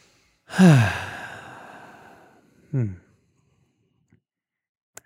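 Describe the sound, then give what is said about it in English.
A deep breath taken during a relaxation exercise: one long, airy breath of about two seconds, then a shorter second breath, with quiet stillness around them. “So maybe some deep breaths. Deep breaths.”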